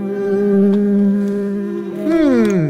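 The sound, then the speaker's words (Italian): Housefly buzzing around a kebab: a loud, continuous droning buzz that holds one pitch, then wavers and shifts upward near the end. “via mosca maledetta, via mosca da mio kebab, vai via!”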